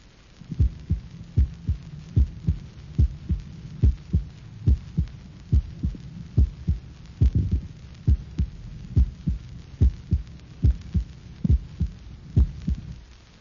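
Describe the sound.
Normal heart sounds recorded at the apex, with many steady lub-dub cycles. The first sound of each beat is longer, louder and lower-pitched than the second, with a shorter gap within each pair than between cycles.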